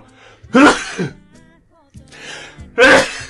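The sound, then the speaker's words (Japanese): A person sneezing, with two loud, sharp bursts separated by a quieter stretch of faint breathy sounds. “あ、くしゃみ。”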